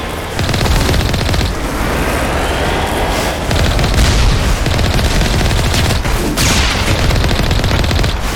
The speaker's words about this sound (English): Wow, I wasn't even shooting at that one guy with the tank shell, and it accidentally just blew him up.